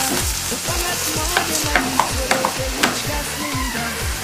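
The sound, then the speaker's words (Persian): A utensil stirs food frying in oil in a pan after more oil has been added. Many rhythmic scraping strokes repeat steadily over a constant sizzle, with no voices. “گفت که این یه مقدار روغن دیگه نیاز داشته، یک دری روغن دیگه ریختن. من همچنان مشغول هم زدن.”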